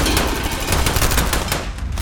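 Rapid automatic gunfire in a dramatized military combat scene from an adaptation of Philip K. Dick's Second Variety: a dense, continuous rattle of shots that holds loud and steady before thinning at the very end.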